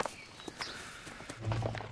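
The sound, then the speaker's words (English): Soft footsteps of people walking through a forest while leading horses: a few light, irregular steps, faint and alone, with a low hum swelling near the end. “walking through the forest, leading the horses”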